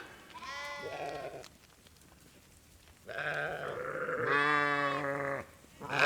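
A herd of goats or sheep bleats: a few long, wavering cries that rise over a low background murmur, with no talking.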